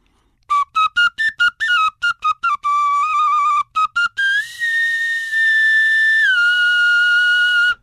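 Bright whistling notes from a reconstructed flute made of black bear bone: a quick run of many short separated notes, then long held tones that step up and later drop back down.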